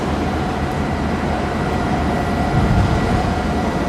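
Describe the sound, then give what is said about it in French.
Steady industrial rumble from a container terminal quay in Yantian at daybreak, with cranes at work. It is a dense, continuous low drone with a slight swell near the end, and no voices. “Le jour se lève à Yantian, sur le terminal des conteneurs, au bout du bout du quai.”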